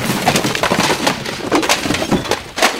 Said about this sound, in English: a tower of cassettes collapsed against my back.